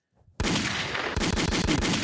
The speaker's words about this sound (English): That's a missile.